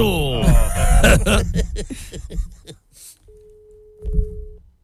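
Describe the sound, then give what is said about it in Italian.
Telephone line tone after people talk: a single steady, mid-pitched tone holding for just over a second, with a voice briefly breaking in over it. “Allora, o no, c'è occupato. No, stava chiamando. Ah, stava chiamando. A me sembrava che era linea occupata, faceva tu.”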